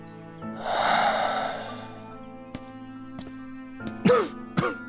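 Suppressed, hoarse coughing from someone alone in a study: a long breathy exhale, then a few short, muffled, low coughs and throat sounds, strained and dull.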